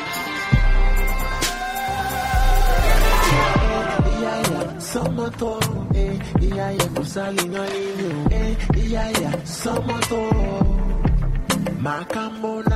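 Music by a Congolese-born singer-songwriter based in Montreal: a steady rhythmic pulse of percussive hits over deep bass and sustained tonal layers, playing throughout with no talk.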